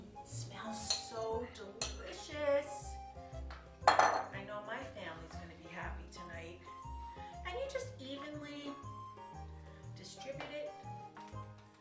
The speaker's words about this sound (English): So here we are, ready to go. So you put it in your casserole.